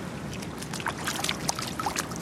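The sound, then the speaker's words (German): A foot dips into the water of an outdoor swimming pool in Berlin, giving light sloshing, splashing and trickling sounds at a moderate level. “Man muss am Anfang erstmal einen Fuß ins Wasser stecken, um zu gucken.”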